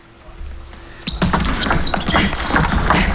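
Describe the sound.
A table tennis ball being struck as Ahn Jae-hyun serves against Liang Jingkun in a match: after a quieter opening second, a run of sharp, quick clicks of the rally follows over a busy background.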